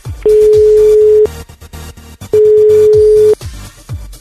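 Telephone ringback tone while a call is being placed: two loud, steady, mid-pitched buzzes, each about a second long, separated by a pause of similar length, with nothing else clearly heard.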